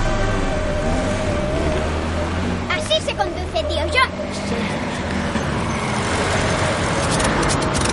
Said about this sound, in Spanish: Aparcan el autobús en un lado de la carretera.